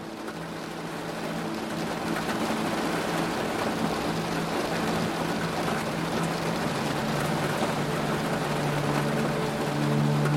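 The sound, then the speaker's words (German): Steady rain drums without pause on a cozy caravan at night, a dense, even hiss and patter with a faint low hum beneath it throughout. “getragen von den Erinnerungen an die Wicklow Mountains, begleitet von dem gleichmäßigen Trommeln des Regens.”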